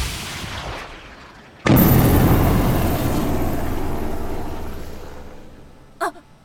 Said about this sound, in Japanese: S671 被弾、対空ミサイルが直撃した模様です。